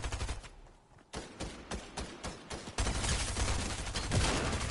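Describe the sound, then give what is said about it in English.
Gunfire erupts in a multiplayer shooter video game as a squad comes under attack. Short bursts of cracking shots come in quick clusters, then give way to denser, sustained automatic fire. “Somebody shooting at us. Where are they?”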